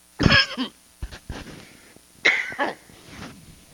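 Coughing and throat clearing from someone with a tickle in the throat while teaching on a Bible passage: a few harsh, rasping bursts, with a strong cough at the start, smaller clears after it, and another forceful cough followed by a trailing rasp.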